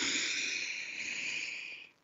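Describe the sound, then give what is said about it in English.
One long, deep, airy breath from a person, hissing steadily and evenly before tapering away at the end. “So let's take a moment, take a breath.”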